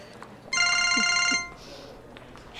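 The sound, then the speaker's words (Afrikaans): A mobile phone rings from an incoming call with one short burst of bright, warbling electronic tones that stops after about a second. Faint background noise surrounds it. “Ek gaan jou gou bel sodat jy my nommer het.”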